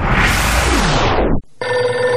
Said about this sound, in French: le téléphone qui sonne